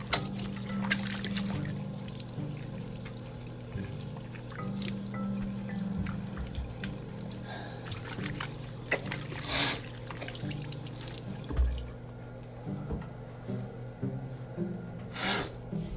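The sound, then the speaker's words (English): Water running from a tap while hands are washed under it: a faint, steady trickle with a few louder splashes. “Sorry, I'm just washing my hands.”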